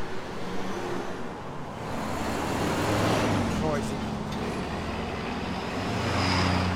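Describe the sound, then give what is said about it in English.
Traffic on a busy street corner gives a steady, broad rumble of passing cars and heavier road vehicles. It grows somewhat louder after the first couple of seconds and then stays dense and continuous. “I'm out on the street. This is a very busy street corner. Off and on. Gets quiet, gets busy.”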